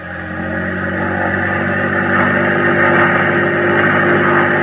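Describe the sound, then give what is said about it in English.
Boat engine revving at full throttle: a loud, steady, broad roar that swells slightly as it runs, with no talk over it. “Full throttle!”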